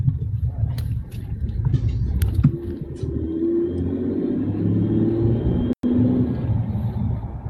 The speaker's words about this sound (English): it sounds like Rich is driving a semi, or a semi is driving by Rich.